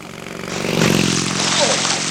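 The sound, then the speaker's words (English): A motorbike racing by fast, its engine noise swelling into a loud, rough roar that holds steady to the end. “Hey! You on the motorbike! Don't go so fast!”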